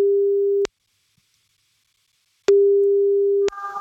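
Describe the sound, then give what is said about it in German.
Ringing tone of an outgoing telephone call: two steady, mid-pitched tones with a long silent gap between them, followed by faint line noise as the call connects. “Sobald sie rangeht, laufen die 30 Sekunden und wir rufen jetzt Sabrina an.”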